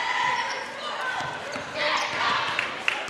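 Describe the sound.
A basketball dribbled on the court during a girls' high school game, a few sharp bounces sounding under steady play-by-play commentary and crowd noise.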